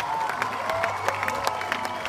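An audience applauds, with many hands clapping in a dense, steady patter and some cheering mixed in.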